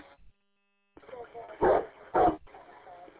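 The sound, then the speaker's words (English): A dog barks twice in two loud, sharp bursts close together, while a person talks over and between them. “And he's over here with the barking dog.”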